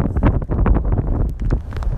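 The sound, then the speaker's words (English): Strong wind blowing across a golf course during a tournament, buffeting the microphone in loud, rumbling gusts that rise and dip throughout, with no talking. “This wind is getting stronger.”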